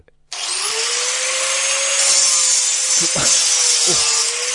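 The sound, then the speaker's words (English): Makita XAG11T angle grinder kicking in abruptly and running steadily, a loud continuous high whirring whine layered with harsh, hissing grinding noise and a few brief scraping accents, heard alone. “Is that a Makita XAG11T? It is!”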